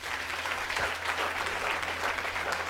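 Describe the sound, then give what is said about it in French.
A church audience applauds in praise during a worship service. The patter of many clapping hands is dense and even, held at a steady level throughout. “Acclame le Seigneur.”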